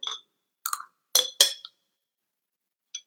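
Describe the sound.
Glasses clinking in a toast: a few bright, high clinks in quick succession, then one fainter clink after a short pause.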